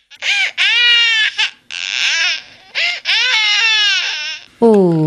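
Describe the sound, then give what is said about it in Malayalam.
A baby cries in long, loud, wailing bursts. The pitch rises and falls sharply, with brief breaks between sobs and a final higher-pitched wail. “അമ്മയുടെ ശക്കര കുട്ട കരയല്ലേടാ, അമ്മയുടെ പൊന്നുമുത്തല്ലേ. വാവ് ഉറങ്ങിക്കേ.”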